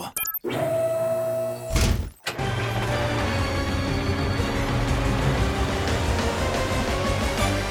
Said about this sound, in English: Carl drives down the road in the dark.